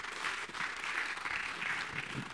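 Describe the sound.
A church audience gives steady, dense applause. The clapping is sustained and even throughout, with no break.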